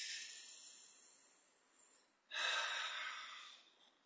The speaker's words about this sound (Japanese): はい、じゃあ深呼吸。